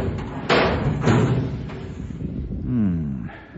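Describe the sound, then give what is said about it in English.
A small door high on a tank is opened by turning the handle and pulling up: two dull thumps and clunks, then a short, wavering creak as it swings open. “Well, this is the only little door up here. It must be this one. Now, let's see. You said to turn the handle clockwise and pull up.”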